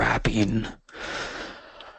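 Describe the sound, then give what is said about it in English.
A yawn opens with a voiced, stretched sound and trails off into a long, soft breathy exhale. “getting a little yawn out there”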